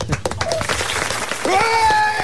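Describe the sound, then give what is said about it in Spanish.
Audience applause at a rock tribute night, busy clapping under a voice at first, then swelling louder with a sustained cheer in the second half. “¡Un aplauso para Fran de Fingerbitter!”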